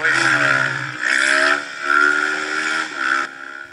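A motorcycle engine revs as the bike pulls a wheelie, rising and falling in a few loud, tonal surges with short dips between them.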